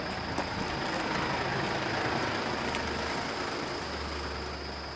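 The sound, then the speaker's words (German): A car pulls into the farmyard driveway of a white-painted, detached house on the edge of a village in the province of Soria. A steady, fairly quiet engine and road rumble runs throughout with a deep low hum, and no voices are heard. “Hugo Núñez fährt in die Hofeinfahrt eines weiß gestrichenen, alleinstehenden Hauses am Ortsrand von Verteles in der Provinz Soria.”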